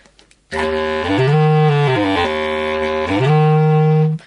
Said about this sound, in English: This is a bass clarinet. It's about the size of, bigger than a tenor saxophone. It's also based exactly on the clarinet. It's made of wood. It's a single reed instrument,